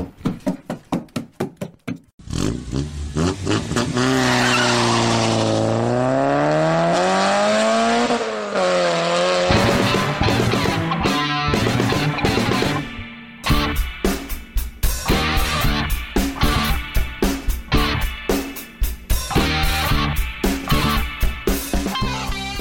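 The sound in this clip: A car arrives and roars off, its engine revving loudly with pitch swinging up and down, then a busy stretch of rhythmic pulsing and squealing as it speeds away.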